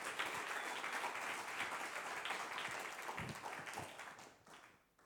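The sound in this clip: Audience applause welcoming a speaker to the stage, a dense, steady wash of many hands clapping that holds evenly and then fades away at the end.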